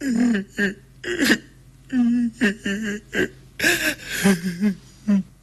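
A girl crying with her head bowed: many short, broken sobs and whimpering catches of breath, uneven in rhythm and moderately loud.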